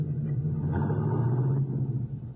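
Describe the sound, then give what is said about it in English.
A car rolls away slowly in first gear as the clutch is let out easily. A steady low engine rumble holds, then eases slightly in loudness near the end. “Now, put it in first. Let the clutch out easy and you'll roll slowly and smooth.”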